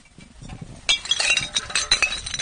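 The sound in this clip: Glass bottles clinking together in a rubbish bag full of discarded alcohol bottles: a quiet rustle at first, then many bright, sharp clinks and rattles in quick, irregular succession.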